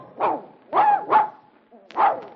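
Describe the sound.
A dog gives four short, sharp barks, two close together in the middle, with a brief faint yip between the last two.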